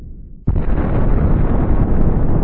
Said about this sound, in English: In a colossal cosmic collision, it slammed into our planet, creating our moon, and according to Crisp